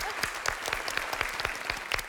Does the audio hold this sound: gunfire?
no

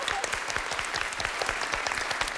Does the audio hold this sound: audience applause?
yes

